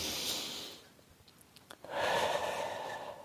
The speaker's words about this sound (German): schließ die Augen und atme einmal tief ein und aus